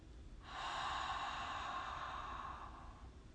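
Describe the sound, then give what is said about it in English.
A slow, deep breath exhaled through the mouth during a mindful breathing exercise: one smooth, airy breath lasting about two and a half seconds, steady and then gently fading, soft and alone. “Long, slow, deep breath in through the nose. And then exhale slowly through the mouth so you can hear the breath or the nose.”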